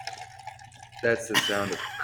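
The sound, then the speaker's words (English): Kraken rum poured into a cup gives a faint, brief liquid gurgle lasting about a second, set against quiet background noise. “That's the sound of Kraken going into my cup.”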